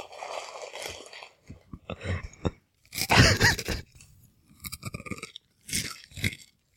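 Crunching on a Chex Mix snack mix with pretzels: several bursts of crisp, crackly chewing and biting come close and fairly faint, separated by short pauses.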